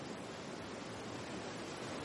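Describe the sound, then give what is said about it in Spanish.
Ocean waves breaking on the sandy shore of a small cove, a soft, steady rush of surf that holds even and faint throughout, with no voices. “Contempla el mar un instante las olas rompen sobre la orilla.”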